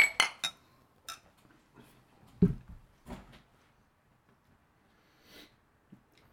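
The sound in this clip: Beer glasses clinking in a toast at a tasting, a few sharp bright clinks close together at the start, then scattered quieter knocks and clinks with long gaps of near silence.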